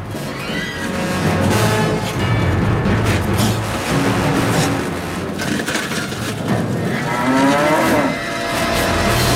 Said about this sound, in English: A nearby cow watches while chewing the cud.